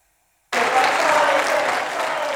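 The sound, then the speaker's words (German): After a moment of silence, far-right members of the EU Parliament in Strasbourg give a standing ovation during Viktor Orbán's appearance. Loud, dense applause bursts in suddenly and carries on steadily, easing slightly toward the end. “Während die Linke ein antifaschistisches Lied anstimmt, gibt es gegenüber von rechts außen Applaus im Stehen.”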